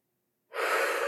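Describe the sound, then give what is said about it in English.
A single deep breath drawn in during a guided relaxation. After half a second of silence it starts suddenly and holds as a steady, airy rush until the end. “I would like you all to take a nice deep breath with me.”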